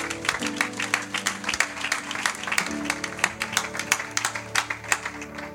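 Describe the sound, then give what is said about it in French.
Many sharp claps from a church audience applauding a pastor as he is welcomed, crisp and fairly rhythmic. “Acclamons l'homme, accueillons l'homme du serviteur de Dieu.”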